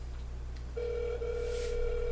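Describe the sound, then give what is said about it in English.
Telephone ringback tone on an outgoing call: after a short quiet stretch, a steady, single-pitched electronic tone starts and holds unbroken to the end over a low, constant hum. “But as you hear this phone ring, we about to actually add somebody in for a hot second if they pick up.”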